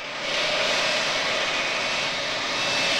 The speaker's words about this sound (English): Ross now runs parallel to a taxiing aircraft.